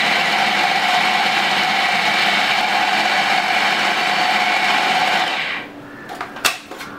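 A blender blitzes chickpeas with their cooking liquid and a glug of olive oil into hummus. Its loud, steady motor drone runs for about five seconds, then cuts off, leaving a few light knocks.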